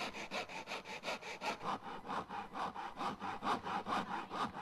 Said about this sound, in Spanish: el proceso comienza tomando una de las calabazas y con una sierrita, una hoja de sierra, se va cortando transversalmente hasta lograr las dos mitades.